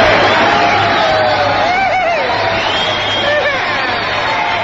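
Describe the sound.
Studio audience cheering loudly and continuously, a dense roar of crowd noise with whoops and whistle-like cries rising above it throughout.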